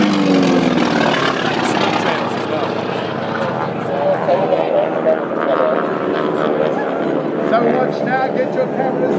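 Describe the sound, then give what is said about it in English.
Aircraft fly over in formation during a simulated attack display, a steady, loud engine roar that fills the whole stretch without letting up, with people talking over it. “to stand here to watch these airplanes come over”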